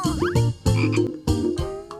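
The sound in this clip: A frog croaks in a series of loud, rough, low-pitched calls, each a throaty burst repeated in a steady rhythm with short gaps between them.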